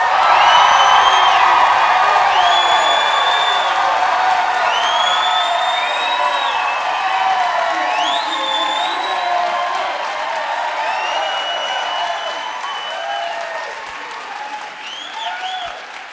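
A live audience at Tufts University in Medford, Massachusetts cheers, whoops and applauds in a dense, loud wave with rising whistles over the clapping, sustained for about sixteen seconds and easing slightly toward the end.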